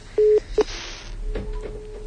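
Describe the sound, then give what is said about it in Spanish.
Telephone keypad tones as a number is dialed: one longer tone and then a brief second beep, followed by a soft, steady hiss. “vamos a marcar a Marco. ¿Marcar a Marco?”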